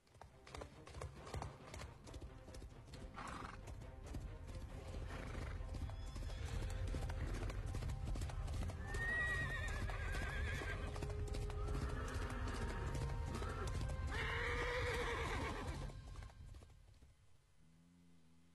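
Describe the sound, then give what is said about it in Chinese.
Horses being ridden clip-clop with steady, continuous hoofbeats under a dense, loud bed of sound, and several neighs and whinnies break out in the middle before the clatter fades. “大伙都骑着马，特别是李白”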